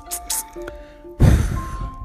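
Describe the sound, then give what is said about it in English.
A person blows a breath toward the listener, a single loud, breathy whoosh of air that follows some softer sounds and then trails off. “I blow the breath of extra love on you.”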